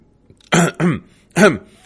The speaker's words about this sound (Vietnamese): Đội trưởng ho khan một tiếng.